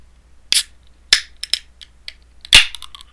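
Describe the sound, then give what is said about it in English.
A Rock Gut Bush beer being opened: a series of sharp clicks and cracks at uneven intervals, then a louder snap followed by a short hiss. “I gotta open this Rock Gut Bush beer.”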